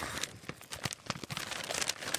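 Tape being pulled off a padded envelope to open it: quiet, irregular crackles and short tearing rips, with brief pauses between the bursts.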